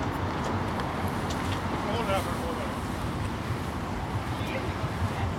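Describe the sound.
A boat engine running at the Slussen lock, heard as a low continuous rumble with wind noise. People talk over it throughout.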